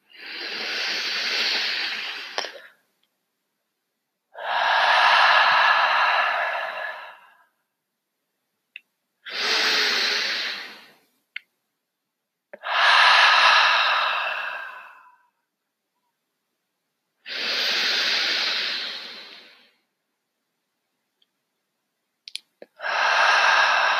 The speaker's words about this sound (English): let's end this podcast by taking three of the deepest breaths we've taken all day. Ready?